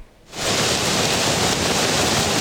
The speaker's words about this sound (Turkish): Sağanak yağış ve fırtına birçok ilde yaşamı olumsuz etkiledi. Görüntüler Şırnak'tan. Beytüşşebap ilçesinde aşırı yağışlar sonrası Habur Çayı'yla Yeşilöz Deresi taştı.